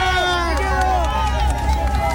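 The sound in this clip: Dense crowd noise from people walking alongside president-elect José Antonio Kast. Loud, overlapping voices and shouts continue without a break.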